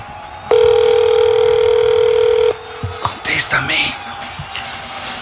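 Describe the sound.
A steady telephone dial tone sounds as a call is placed, one continuous, fairly loud tone lasting about two seconds. It cuts off abruptly, and people then talk.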